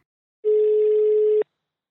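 A single steady telephone tone sounds alone for about a second as a call is placed, then cuts off abruptly.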